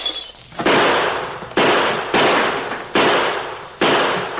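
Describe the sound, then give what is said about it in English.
Rifle and six-gun gunshots ring out: five loud, sharp cracks at uneven intervals, each followed by a long, fading tail before the next shot. “Keep shooting. Oh, put down that rifle.”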